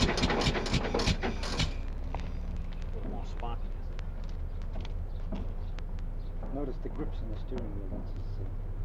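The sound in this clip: An old car engine being started and run, with steering-wheel grip controls for gas and spark: a burst of rapid popping at first, then a steady low rumble with faint ticking while people talk over it.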